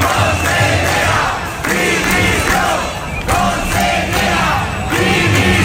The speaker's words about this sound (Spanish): La ciudad ha vivido una nueva manifestación en el marco de la huelga de profesores de la educación pública en la comunidad.